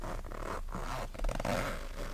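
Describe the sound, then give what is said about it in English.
A boot zipper pulled up with the teeth, a few short, rasping zip strokes broken by brief pauses. “Then gently take the zipper between your teeth and pull it up.”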